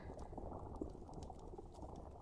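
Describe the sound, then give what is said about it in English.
Faint, continuous bubbling and fizzing of a potion burning in a video game, a low, steady simmering texture with no distinct events and no voices. “The potion is still burning. Maybe it'll take a second.”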